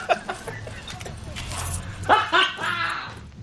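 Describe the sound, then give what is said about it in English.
A few sharp dog-like barks from a van's car alarm, rising over a busy background where voices are present. “I spent my life savings turning my van into a dog. Hi, Petey. The alarm alone cost me $200.”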